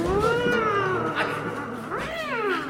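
Cat meowing in a few drawn-out, wavering cries that rise and fall in pitch, loud and alone with no talk.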